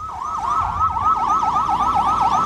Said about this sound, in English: An ambulance screeches up the road into the Palestinian city of Isaraya.